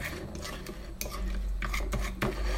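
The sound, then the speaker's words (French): A fork tip mashing fruit on a plate makes a series of scraping, clinking strokes of metal against the plate, fairly loud and irregular, with no talking. “je suis vraiment là en train d'écraser avec le bout de la fourchette. Je fais tourner l'assiette éventuellement.”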